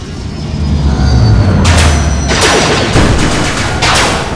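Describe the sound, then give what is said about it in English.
Gunfire from ground forces opening fire comes as a few loud, sharp blasts in quick succession over a low rumble, with the shots clustered in the second half. “Landing hard on the ground, now surrounded by the ground forces, they open fire on the Rangers.”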